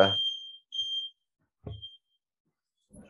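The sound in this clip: An alarm going off with high, piercing electronic beeps in an uneven pattern: a long tone, a shorter one, then a brief faint chirp.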